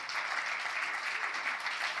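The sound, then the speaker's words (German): A church audience applauds its pastor with dense, steady clapping that stays even and unbroken for the whole clip. “Aber Markus möchte trotzdem einen Applaus, lassen Markus einen Applaus geben für alles, was er hier tut und macht.”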